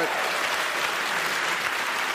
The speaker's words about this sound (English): They agree. That will always get applause in Los Angeles.